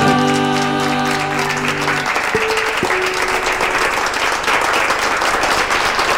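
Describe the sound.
Audience applause after a trio's live music performance: dense, steady clapping throughout, with sustained musical tones fading out beneath it during the first couple of seconds.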